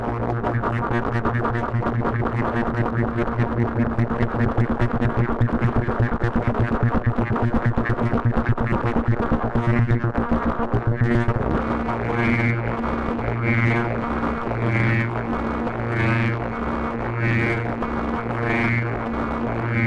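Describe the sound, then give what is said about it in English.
A synthesizer with all its LFOs cranked up to audio rate gives a loud, dense, buzzing, distorted drone. In the second half it turns into a steady, rhythmic pulsing pattern. “So right now I'm just kind of cranking the speed on all the LFOs to see what kind of sounds we get. We get up into the audio rate range.”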